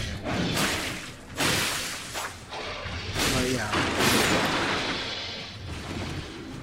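Combat sounds from the video game Elden Ring: heavy booms, crashes and swooshing swipes follow one another in a loud, dense, continuous stream with brief dips between hits.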